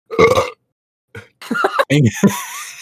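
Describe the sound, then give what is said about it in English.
A person lets out a loud, low, rasping burp, then a few short voiced throat noises follow after a brief pause. “Just burps in their face.”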